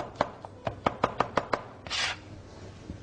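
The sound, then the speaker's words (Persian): Knife chopping food on a cutting board: a steady run of sharp, crisp chops at an even rhythm, followed by a brief scraping rustle and one last faint tap. “حتما انگشت سر انگشت بند اولتون رو به سمت عقب هدایت کنید و این بند دوم حائل میشه برای خرد کردن، یعنی باعث میشه شما حتی بتونید چشم بسته هم این رو خرد کنید.”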